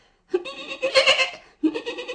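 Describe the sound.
A young goat bleats twice. The first call is long and wavering, and the second starts after a brief gap and runs to the end.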